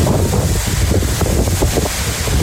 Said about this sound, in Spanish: este es el sonido del protagonista del día, el viento.